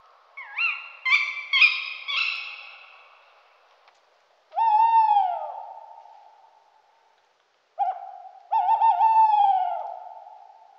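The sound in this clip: Owl hooting: three quavering call phrases, each a pulsing, wavering hoot, loud and alone with pauses between them.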